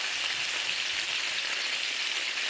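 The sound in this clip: Bacon frying in a pan, standing in for rain: a steady, dense crackling sizzle with fine popping that holds an even loudness throughout, heard alone with no voices.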